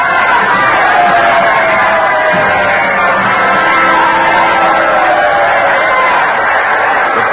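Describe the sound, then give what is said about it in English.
A packed theater audience stands to welcome President Lincoln with a loud, steady roar of crowd noise and cheering that holds at an even level throughout, with a dull, muffled tone. “The audience is standing. Mr. Lincoln is acknowledging the welcome. Beaming, he nods his head and waves to the jam-packed crowd.”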